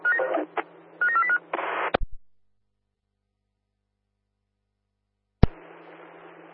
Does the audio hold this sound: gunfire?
no